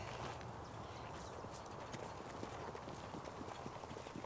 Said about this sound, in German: Figut läuft, als hätte er Schmerzen. Wie kommen Sie darauf? Er schont sich auf der harten Bahn. Der Kopf kommt höher. Der Trab wird kürzer.